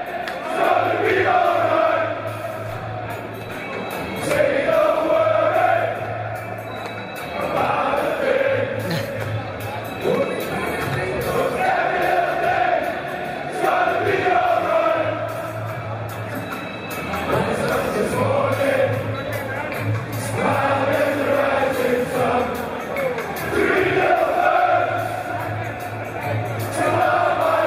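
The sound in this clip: Football crowd at Ajax's Johan Cruyff Arena in Amsterdam singing a reggae song together: sustained massed voices rising and falling in long phrases over a steady murmur.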